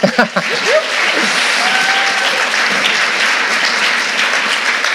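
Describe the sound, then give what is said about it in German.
Audience applause fills the room as a steady, dense wash of clapping that stays loud and even throughout, with a brief sharper burst of claps at the very start. “Ihr dürft ihm auch nochmal einen Applaus geben, oder?”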